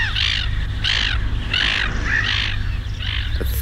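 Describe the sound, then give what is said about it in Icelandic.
A bird calls in a series of harsh, squawking caws at a fairly regular pace. The calls sit over a steady low background rumble. “það er líka svo mikið af þessum fugli hérna”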